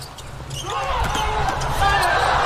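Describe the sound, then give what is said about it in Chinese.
A ball thumps a few times during a serve at a volleyball match against Cuba's team. The dull knocks are set against a loud, steady crowd roar. “王斌第二次发球，跑得很好。”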